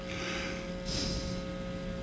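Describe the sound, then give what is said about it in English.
Nasal breathing, in and out through the nose only, demonstrated during a guided breathing exercise: a soft, steady airy hiss with a brief swell partway through, fairly quiet and with no talk over it. “What I want you to do is just breathe in only through your nose. I'm doing it. Out through your nose.”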